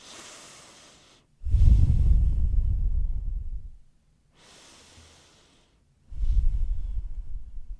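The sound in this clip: A group taking deep breaths together: two slow cycles, each a soft airy inhale followed by a longer, louder, rumbling exhale.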